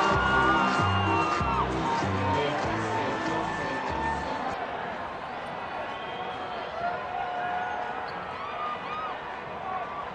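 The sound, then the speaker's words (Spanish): A crowd voting by applause shouts and cheers at a live event, a dense, continuous roar of many voices with whoops rising out of it, loudest at the start and easing slightly after the middle. “Resultado final, anulado por recibir gritos y sonido de pirotecnia. Solo se computan aplausos y ningún sonido más.”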